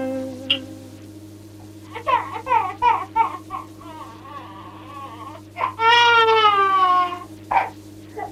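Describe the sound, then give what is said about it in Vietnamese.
Infant crying and sobbing in a Vietnamese reformed-opera scene set at a quiet Buddhist temple gate: several wailing, whimpering bursts, the loudest and longest near the end, over a steady low hum. “nơi cửa thiền thanh tịnh, sao có tiếng hài nhi nức nở khóc la?”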